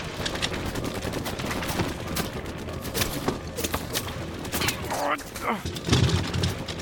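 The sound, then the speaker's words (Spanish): Gunfire comes from a building in a drama: many sharp cracks in rapid, irregular bursts throughout, with voices heard amid the shooting. “¿Viste de dónde disparan? Desde el edificio del frente.”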